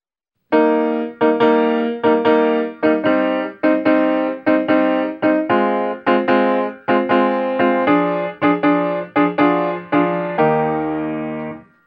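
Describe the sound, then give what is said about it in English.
Orchestral ritornello in French overture style: strings alternating with oboes in dotted long-short rhythms. Many loud, detached chords fall in a steady pulse, and the passage ends on a held chord. “And that sounds very French overture-ish to my ear with the long, short rhythms as an introductory idea.”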